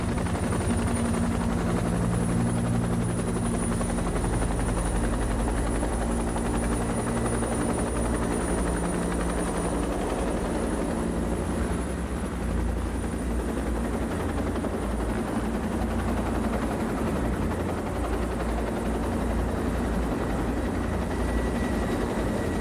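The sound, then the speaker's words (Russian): A helicopter's steady, loud rotor-and-engine drone throbs continuously as it comes down to land on a stone plateau pad beside a tethered horse, with no clear rise or fall in level. “слыша звук приближающегося вертолета, встает со своего места и поднимается по ступенькам на каменное плато.”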